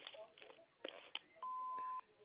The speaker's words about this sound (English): if you leave your name and number after the beep, we'll get back to you as soon as we can.